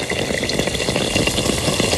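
Yeast dough frying in hot fat, making a loud, continuous sizzle with dense bubbling crackle that stays steady throughout, with no voices.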